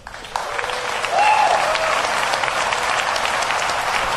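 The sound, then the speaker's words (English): Applause welcoming Chris Anderson, editor of Wired Magazine: dense, steady clapping from many hands, swelling slightly after the first second and continuing strongly for about four seconds. “All right, everybody, please give a warm welcome to Chris Anderson, editor of Wired Magazine.”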